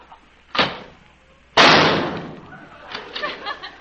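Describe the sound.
A gunshot sound effect fires twice, sharp loud bangs about a second apart, the second heavier with a longer decaying tail. A voice follows faintly afterward.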